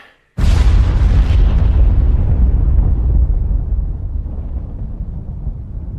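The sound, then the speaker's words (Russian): A hand grenade explodes after its pin is pulled: one loud, sharp blast that quickly fills the sound, then a long, low, rumbling decay that slowly fades and keeps going to the end, with no voices. “В левую руку гранату, ближе к груди, выдернул чеку. Раз, два, три.”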